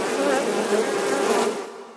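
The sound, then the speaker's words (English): Buzzing of killer bees: a loud, dense, steady droning hum with a wavering tone that fades out over the last half second. “Killer bees!”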